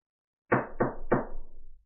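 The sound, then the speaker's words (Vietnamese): Three firm knocks on a room door, evenly spaced, each a dull thud with a lingering tail that blends into the next, fading out after the last strike. “La Phong gõ cửa.”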